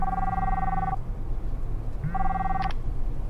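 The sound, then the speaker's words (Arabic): A phone rings with an incoming call, two bursts of a steady electronic ring tone separated by about a second of pause, heard over a low, constant background hum. “محمد زميلي جالس اتصل”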